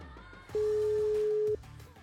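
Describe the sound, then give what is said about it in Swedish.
A single steady telephone ringing tone sounds while a call is being placed. It is one even beep of about one second, clearly louder than the faint background before and after it. “Ska vi börja med att ringa upp henne på en gång?”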